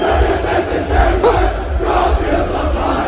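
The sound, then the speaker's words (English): Montreal Canadiens fans celebrating in the streets after a Game 7 win, a loud, continuous crowd roar of cheering and chanting voices. “I don't know what they're saying. It sounds like roast in the fire or something. Roasted in the fire. Fans took to the streets to celebrate the Habs Game 7 win last night in Tampa.”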